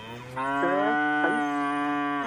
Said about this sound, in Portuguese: a vaca tá berrando, tá vendo? Já tá querendo... Tá querendo a ração dela.